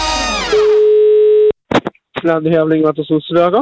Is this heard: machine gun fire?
no